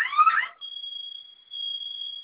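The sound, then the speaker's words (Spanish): An alarm sounds after two buttons are held down together for five seconds: a steady, high-pitched electronic tone that stays level and unbroken after a brief, softer burst of sound at the start. “¿Sonó su alarma? Sí.”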